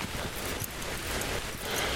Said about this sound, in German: Das regnet so richtig ernsthaft. Ich mag so Regen nicht.